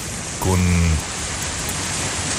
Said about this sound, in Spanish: Y sigue lloviendo, ¿eh? Se ven las imágenes ahí con una lluvia bastante persistente